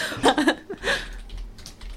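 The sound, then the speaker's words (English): A search is typed on a computer keyboard: a few quick, soft key clicks sound in a short, uneven burst. “I'm gonna do what you said originally and type in Strictly Blackpool dates.”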